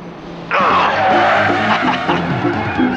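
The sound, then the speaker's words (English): A car brakes hard, its tires squealing in a sudden loud skid that cuts in after a quieter moment and holds strongly to the end, with engine noise beneath. “Slamming on the brakes, Murphy turns the car to go after Trackstar”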